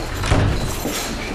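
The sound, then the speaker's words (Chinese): A door is pulled shut with a dull, low thud near the start, heard over a steady wash of background noise. “来，把门关上。”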